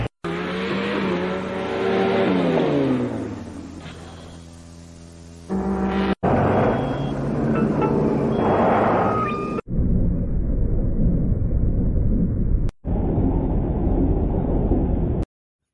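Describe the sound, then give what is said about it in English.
Loud roaring engines and squealing, screeching effects from the trailer of the 1974 horror action film Killdozer, which stars construction equipment. The roars are sustained, with shifting whining tones, and are broken into several abrupt cut sections. “journeyed back to the 70s to talk about the 1974 horror action thrill ride that stars construction equipment, Killdozer. And I apologize for this horrible trailer.”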